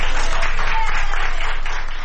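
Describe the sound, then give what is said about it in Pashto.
Doctors and nurses in a Madrid hospital applauding a 104-year-old woman who recovered from coronavirus, producing loud, continuous group clapping with a fast, even pulse throughout. “د اسپانیا په پلاسمینه مادرید کې ډاکټران او نرسان هغې مېرمنې ته چکچکې کوي چې تر 100 کلونو تیره ده او له کورونا رغېدلې ده.”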